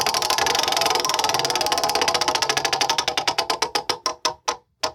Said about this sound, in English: I'll spin the wheel. Spin it.